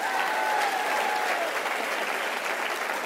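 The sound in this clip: A church audience applauds for the pastor's wife as she comes out. The clapping is dense and even, holding at full strength without a break for about three seconds.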